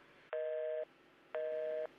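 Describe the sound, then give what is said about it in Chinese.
A telephone tone sounds after a call is hung up: two identical steady beeps, each about half a second long, separated by a pause of similar length. They are loud and even over a faint background hiss, with no voices. “居然挂我电话”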